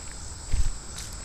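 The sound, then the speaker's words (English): A brief cluster of soft footsteps while walking out towards a boardwalk outdoors, low and muffled, rising once mid-clip over a steady high insect drone. “We're going to tough it out for a little while, see what happens. Walking out towards the boardwalk.”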